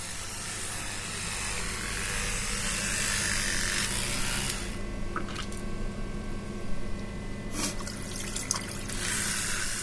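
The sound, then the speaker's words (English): Teeth being brushed beside a running tap, with water streaming steadily into a sink as the main sound and a brief change in the flow partway through. “For most people, the sound of brushing your teeth will be one of the sonic events that takes place in the morning.”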